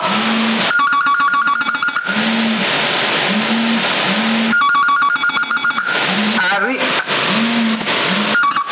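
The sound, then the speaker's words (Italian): A home telephone rings in repeated bursts of rapid electronic trills, thin and band-limited as if sent over a CB radio channel, with steady tones and a low hum running underneath. “mi stanno telefonando sicuramente per la cena.”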